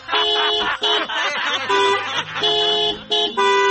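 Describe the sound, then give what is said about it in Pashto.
Vehicle horn honking in a series of loud, harmonic-rich blasts, separated by short breaks, with no talk over it. “یو بل هارن”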